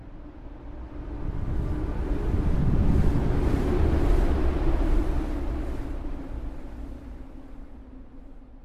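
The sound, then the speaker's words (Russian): Wind howls outside an ice-crusted bunker in a steady, rushing roar that swells to a peak midway and then eases off. No voices are heard. “Снаружи завыл ветер, а бункер, как живой, содрогнулся в ответ.”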